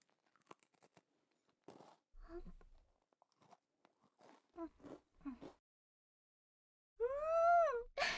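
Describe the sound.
A crunchy butter cookie is bitten and chewed. It is crisp yet melting, with rich milk and butter. A few quiet, crisp crunches and chewing sounds come in irregular bursts separated by stretches of near silence.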